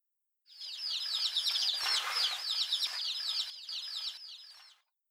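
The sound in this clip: Yellow chicks peep around a hen: a rapid, continuous stream of many high, thin chirps, fairly faint, that rises in and fades out over a few seconds.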